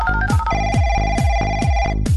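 An electronic telephone ringtone plays steady high tones over a fast, even pulse of many low thumps, with no voices.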